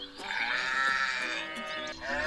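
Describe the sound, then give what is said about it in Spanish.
Goat bleating: a long, wavering, nasal call with a rich buzzy tone, sustained for about two seconds at low volume. “¿El balido de una cabra? Ay, Dios. Señor. Sí.”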